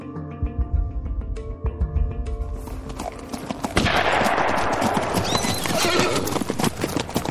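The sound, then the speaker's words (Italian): A gunshot fired into the air by a rider arriving at a ranch cuts in after several seconds of clip-clopping hoofbeats and leaves a loud, dense wash of sound, with a horse whinnying among the hooves. “chi diavolo è che spara? Niente paura, mister. Ho sparato in aria solo per annunciarmi.”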